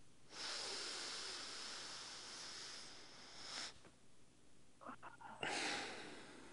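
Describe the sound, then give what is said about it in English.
A slow, deep breath taken at the end of a community talk segment, heard as long, soft, breathy hisses with a gap between them, faint and alone. “let's all take that moment right now to take a very deep, healing breath.”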